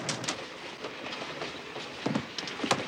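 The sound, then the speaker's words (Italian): An approaching train gives a steady rumble with the clickety-clack of its wheels on the rails, and a few sharper clacks grow slightly louder near the end. “È il treno e viene verso questa stanza.”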